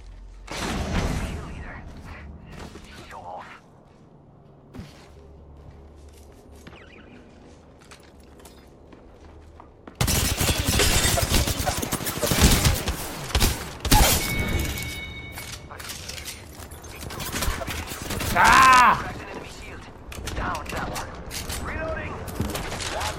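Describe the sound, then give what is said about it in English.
Heavy gunfire in the video game Apex Legends: dense, loud bursts of shots and impacts crowd in after a quieter opening stretch, then continue in rapid clusters with mechanical clatter mixed through them. “I'm hearing shooting there.”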